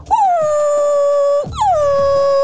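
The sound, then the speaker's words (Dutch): A dog gives two long, loud, tonal howling calls, each starting higher and settling onto a steady sustained pitch, with a brief gap between them. “Wat bedoelt de hond als hij zo blaft?”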